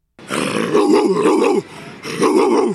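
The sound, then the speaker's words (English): A man imitates a dog's growl with two rough, guttural, throaty growls, a long one followed by a shorter one, loud and close. “He's got the dog in him, yeah. Amy Audibert asked him, what does an NBA dog sound like?”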